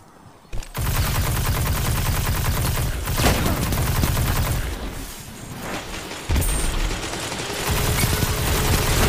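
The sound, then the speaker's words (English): Shotgun fire in a video game's capture-the-flag control match: a loud, dense barrage of gunfire rolls almost continuously, with sharp blasts jumping out of the din at a few points. “That stupid shotgun got me.”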